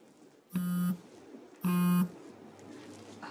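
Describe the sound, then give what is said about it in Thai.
A phone rings with an incoming call: two low, buzzing electronic tones, each about a third of a second long, separated by a gap of about a second, heard over quiet background. “คุณลือโทรมาค่ะเดี๋ยวเพิ่นขอตัวไปรับสายก่อนนะคะ”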